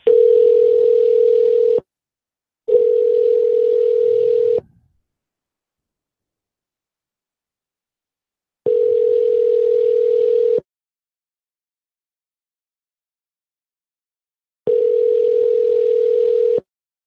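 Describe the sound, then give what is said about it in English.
A telephone line tone sounds while a number is being called: four steady, single-pitched bursts of about two seconds each, loud and clean, separated by long silent gaps. “We probably dial about 45 numbers tonight. So that's a lot of numbers. Here's another one.”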